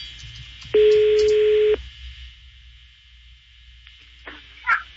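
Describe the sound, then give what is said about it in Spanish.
A ringback tone plays as a phone call is redialed and rings again, a single steady, loud tone lasting about a second over a low background hum, followed by quieter line noise. “A ver, vamos a marcarlo otra vez. Si no contesta, me lo bloqueaste, güey. Está sonando otra vez.”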